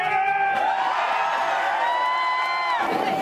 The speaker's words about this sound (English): After 364 consecutive plunges, this weekend, cheered on by hundreds of onlookers, Dan climbed a ladder and took his final, most epic dive.